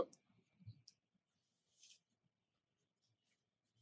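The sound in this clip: A pen writing something down by hand, giving faint, dry scratching strokes in a few short bursts separated by quiet pauses.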